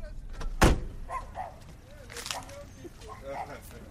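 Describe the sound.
A door shuts with one loud, sharp thud early on, in front of a home where people have just arrived by car; people talk around it before and after.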